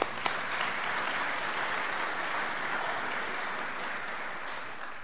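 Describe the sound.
A church audience applauds to welcome a visiting missionary during a Sunday morning service, with soft, even clapping that holds steady for several seconds.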